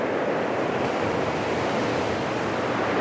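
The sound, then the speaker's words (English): Surf washing onto a shore, a steady, dense roar of breaking water with no clear pauses and no voices, holding at an even level throughout. “That's the surf washing away the map of France.”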